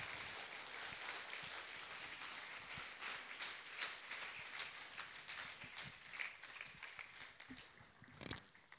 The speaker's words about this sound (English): Let's put our hands together and welcome Pastor Amos.